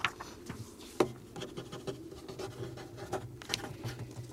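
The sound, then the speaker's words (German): Pen scratching on paper while a resolution is written out, with faint, irregular strokes and scrapes heard alone. “Hier, schreib eine Resolution.”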